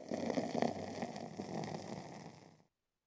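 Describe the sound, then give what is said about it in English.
Beer is poured aggressively into a big cup, making a foamy, gushing fizz that rises and falls at moderate loudness before stopping abruptly. “I'm going to pour this out into this big old cup that I got here. I'll talk about this cup that I got here in a little bit. But just pour this beer right in there.”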